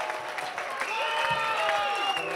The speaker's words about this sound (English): This is a new one. You didn't give me that kind of fucking clap.